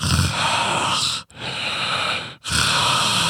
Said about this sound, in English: And you can hear it breathing laborly and raspy, like